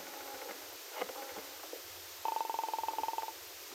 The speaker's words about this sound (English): She hurried into a telephone booth and dialed the number of Dell Shipley's apartment.